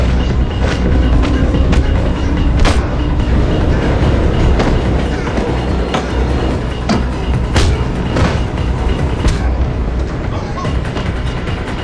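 Metro train running on rails, a loud continuous rumble scattered with many sharp clicks and clacks from the wheels, steady throughout.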